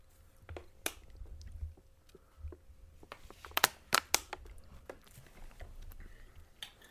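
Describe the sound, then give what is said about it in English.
Someone eats peanut butter, bacon and a little maple syrup from a spoon: faint chewing and mouth sounds with scattered soft clicks and a few sharper taps, irregular throughout. “I feel like I'm going to taste it. Like, do you care if I use your spoon? No. Peanut butter, bacon, and a little bit of maple syrup.”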